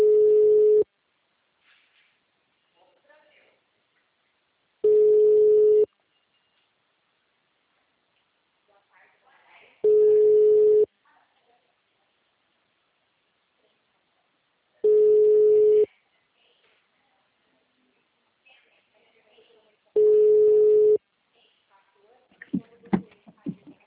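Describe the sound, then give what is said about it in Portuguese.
A telephone line tone after a dropped call: five steady one-second beeps at even intervals, with faint voices between them and toward the end. “É, a ligação caiu.”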